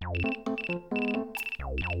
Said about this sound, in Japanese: あ、またミオちゃんにメールが。